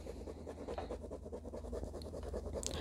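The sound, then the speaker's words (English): Faint, continuous scratching and rubbing of drawing on paper, a steady papery rasp with no voices over it. “I'm drawing, by the way, because I can't think on my own.”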